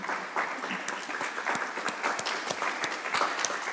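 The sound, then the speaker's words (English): Audience applause welcoming a speaker before a talk on theatre nursing: dense, steady clapping from many hands that holds at an even level throughout. “So I'd like you to all to welcome, put your hands together for Victoria Cran”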